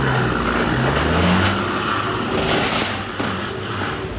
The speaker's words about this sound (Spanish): En lugar de bajar de la unidad y analizar la situación, el conductor se aferró y le pisó al acelerador hasta que destrozó su propio tráiler.